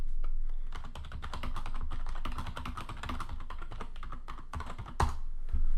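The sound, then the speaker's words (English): Rapid typing on a computer keyboard for a Google Images search, with many quick keystrokes clicking in an uneven stream and a louder thump near the end. “Just go to Google Images and type in. All right, yeah, pull it up. Eddie Hall.”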